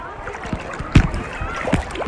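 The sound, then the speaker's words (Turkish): Sea water splashes around a person swimming while holding a phone, with a few sharp splashes among softer sloshing. Talk comes and goes between the splashes. “Şu an su da yutuyorum aranızda. Bir taraftan size konuşunca, bir taraftan telefonu şey yapınca yüzmesi kolay olmuyor.”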